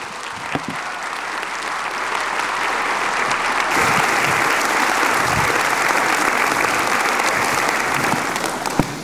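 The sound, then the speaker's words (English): Sustained audience applause at a church service after a sermon, a dense, steady clatter of many hands that holds at an even loudness for the full length with no clear voices over it. “Just one more hand of applause for Travis right there.”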